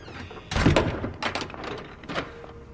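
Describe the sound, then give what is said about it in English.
A door slams shut with a broad, heavy thud about half a second in, followed by a few quieter bumps and knocks. “Slamming the door shut.”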